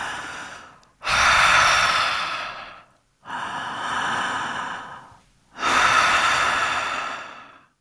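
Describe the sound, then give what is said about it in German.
Breathing in and out through the mouth as a calming exercise: three long, loud, airy breaths, each swelling and fading, separated by brief silent pauses, with no talking. “Also es ist die gleiche Übung, nur nicht durch die Nase, sondern durch den Mund ein- und ausatmen.”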